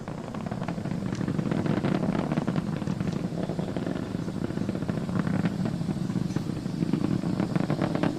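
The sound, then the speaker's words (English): Falcon 9 rocket engines roar during ascent, throttled down ahead of maximum dynamic pressure as the rocket goes supersonic. A loud, continuous low rumble with a crackling, ragged texture holds steady throughout, with no voices. “Throttling down in preparation for the period of maximum dynamic pressure. And then the Falcon flight. Falcon 9 is supersonic.”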